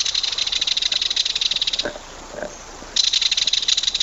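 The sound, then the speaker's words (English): A belted kingfisher gives a loud, dry, rapid clacking rattle in two long bursts. A pause with a few faint notes separates the bursts. “we're going to talk about the belted kingfisher this month. They're quite vocal, but not at all musical, as we'll hear now.”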